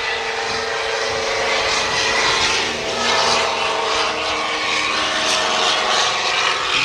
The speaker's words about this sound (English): you got a DC three on the oh, roll. That's a beauty, huh?